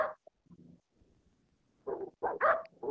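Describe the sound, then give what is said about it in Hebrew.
A dog barks in faint, repeated bursts: one short bark, a quiet lull of low rumbling, then several quick barks in close succession at the end. “הוא פשוט נובח כמו שוגע.”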